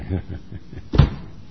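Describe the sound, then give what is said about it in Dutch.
A door slams shut in a single heavy, low thud, with faint talk just before it. “En als die de boodschap gebracht heeft, klapt de deur dicht.”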